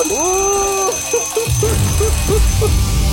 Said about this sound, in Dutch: En dan word je wakker van. Wekker.